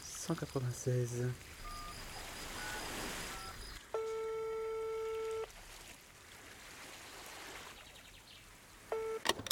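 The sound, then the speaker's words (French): A telephone is dialed to call the maritime emergency line: a quick run of short dialing tones, then a long steady tone lasting over a second, and a brief tone again near the end. “Attends, papa il va passer un coup de téléphone.”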